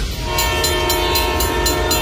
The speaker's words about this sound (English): Ontario Northland reminds residents that the Northlander passenger train will soon be operating in our region. Freight schedules are also changing, and tracks that have been quiet will be active again.